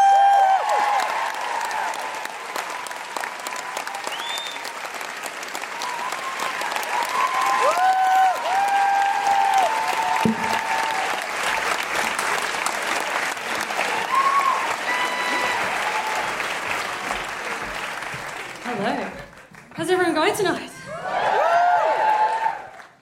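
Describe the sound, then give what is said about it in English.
An audience applauds and cheers in welcome for two members of a band, a loud, sustained roar of clapping with whistles that runs about nineteen seconds, dips briefly, then swells again at the end. “Put your hands together and make incredible welcoming noises for Amy Shepherd and Jay from the band Shepherd.”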